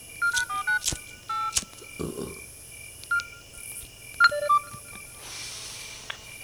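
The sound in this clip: Telephone keypad dialing tones: a series of short, bright beeps in uneven groups, with some sharp clicks between presses, over a quiet low hum.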